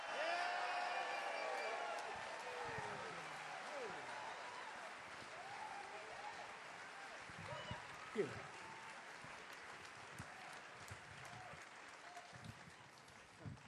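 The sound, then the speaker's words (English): Audience applause at the Carolina Theater in downtown Durham, welcoming a bluegrass band on stage: dense, sustained clapping with scattered whoops and a voice speaking over it, slowly thinning toward the end. “Welcome them to the Carolina Theater, downtown Durham. Give them a big hand.”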